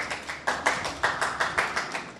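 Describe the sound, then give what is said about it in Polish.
Audience applause at a panel event as a guest is welcomed: many claps in a steady, fairly even rhythm, bright and moderately loud, with no voices over them. “Prosimy o brawa jak najbardziej.”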